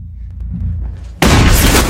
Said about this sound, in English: Sam, who's now standing at the end, shoots at her with a shotgun.